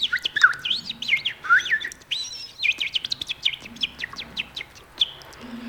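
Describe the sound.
Thrush song: quick, varied phrases of high chirps and whistled notes follow one another, sung alone at moderate loudness.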